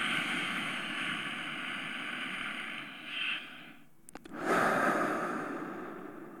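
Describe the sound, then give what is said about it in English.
A deep breath is drawn in and then gently released through the mouth in a relaxation breathing exercise. A long, soft, airy intake is followed by a brief pause with a faint click, then a steady, unforced whoosh of exhaled air. “and then gently exhaling through the mouth, not pushing it out, releasing the breath. So it should sound a bit like this.”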